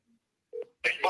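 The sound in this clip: Telephone dialing as a call is placed: a faint short beep, then a louder electronic tone, followed by a harsh, noisy burst of sound.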